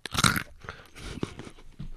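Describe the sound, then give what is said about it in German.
Crunchy candied roasted almonds being bitten into: a loud, brittle crackle in the first half-second, then softer chewing crunches that continue at a lower level without talk. “So, gebrannte Mandel, 1, 2, 3 mit Knack.”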